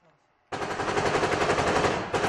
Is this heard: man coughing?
no